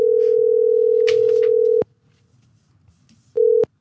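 A telephone dial tone holds a steady, loud single pitch for nearly two seconds and stops abruptly. After a quiet pause it returns in a short burst.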